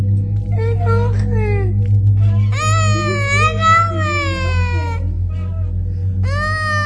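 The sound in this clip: A hungry child crying in a few drawn-out, high-pitched wailing bursts that waver up and down in pitch, over a steady low hum.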